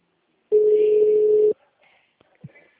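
A telephone ringing tone plays while a call connects: one steady, mid-pitched tone of about a second, followed by a few faint clicks.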